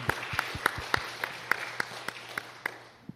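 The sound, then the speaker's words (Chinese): Listeners at a sermon clap for mothers in steady unison: many evenly spaced, sharp claps form a regular beat over a faint background. “咁我哋为母亲鼓掌啊！ 我们为母亲鼓掌。”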